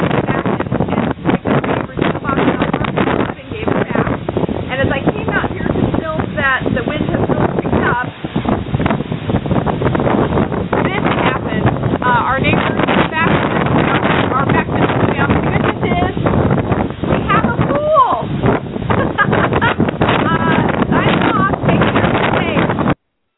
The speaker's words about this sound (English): I'm checking in from Baton Rouge on Wednesday afternoon, about 10 o'clock or so, and the storm has picked up.